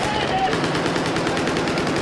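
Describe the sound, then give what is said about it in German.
Bursts of rapid gunfire from soldiers of Japan's Self-Defense Forces firing in a demonstration at an army camp open day in Tokyo, after riding in on motorcycles. The shots come loud and steady in a dense, continuous rattle. “Auf Motorrädern kommen zwei junge Männer angefahren, werfen sich gekonnt hin und feuern direkt los.”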